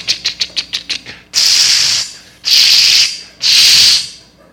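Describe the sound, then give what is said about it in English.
A voice imitates a spray paint can used for tagging a house. A string of quick, short rattling shakes is followed by three long, loud hissing sprays with brief gaps between them. “got a can of spray paint in my little gated community I grew up in. I go up to this house and I just”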